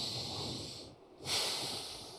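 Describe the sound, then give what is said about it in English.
A big, deep breath taken during a church talk: two breathy rushes of air separated by a brief pause, the second one louder and fuller, with no talking. “I would ask us all to get a big breath”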